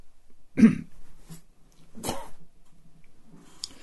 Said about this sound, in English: Excuse me, I had to go spit there.